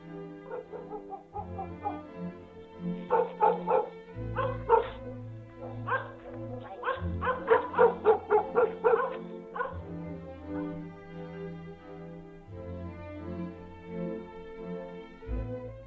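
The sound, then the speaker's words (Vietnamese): Many dogs barking at night across a village, with overlapping barks, yips and whimpers coming in a busy, irregular stream that swells into dense clusters. “dường như ở trong làng này nó có cái gì mà chó cả làng cứ cắn lên ông ổng, rát cả tai, buốt cả ruột”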